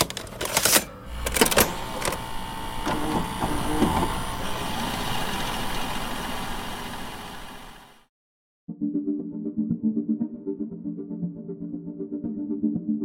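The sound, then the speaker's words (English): A VHS tape goes into a VCR with a few clacks at the start, then steady mechanical whirring, a brief silence and a low even hum from the machine. “let's pop in our first scary tape while I finish up using the tape to tape up the... Here's the tape. Into the VCR we go.”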